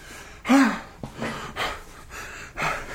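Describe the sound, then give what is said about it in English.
Heavy, wheezy panting from an out-of-breath person: a few rasping breaths in an uneven rhythm, the first with a tonal, gasping edge. “Why are you wheezing? What's going on? I just had to put down this bag of milk chocolate covered almonds. It's exhausting lifting my arm up”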